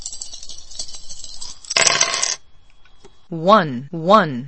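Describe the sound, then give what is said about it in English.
Dice rattling and tumbling in a computer dice game: a bright clattering rasp for about two seconds that ends in a louder burst, then a voice speaks two brief phrases. “Press the space bar to roll the dice.”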